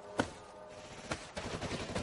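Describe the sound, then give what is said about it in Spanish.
Gunfire from Estonian soldiers shooting from another branch of a trench in a World War II war film: a few faint, sharp shots separated by quiet, low rumbling noise. “Otros soldados estonios les disparan desde otro ramal de la trinchera.”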